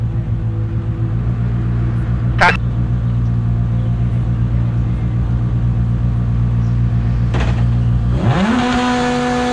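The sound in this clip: A Lancia rally car runs a special stage, its engine a loud, steady droning hum that climbs sharply in pitch near the end as it revs, with voices over it.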